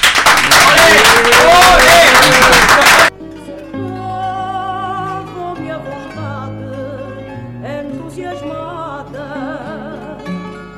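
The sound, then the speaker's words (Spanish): An audience applauds and cheers at a radio station's anniversary celebration in a park. It is a loud, dense burst of clapping with shouting voices for about three seconds, then cuts off as music starts. “Aplaudid, aplaudid, no os cortéis.”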